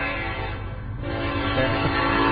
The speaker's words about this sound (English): we're near a train crossing, actually. Might be a little distracting.